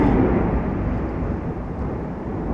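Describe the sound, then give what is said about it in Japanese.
Thunder rumbles during a thunderstorm as a steady, broad, low-heavy roar that holds at an even loudness throughout, with no voices. “あ、雷も今稲光がしましたね。”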